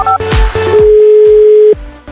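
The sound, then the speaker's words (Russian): Telephone tones as a call is placed from a radio studio: short beeps open, then a steady single tone holds for about a second, alongside a series of low, soft thumps. “Давайте ему сейчас и позвоним.”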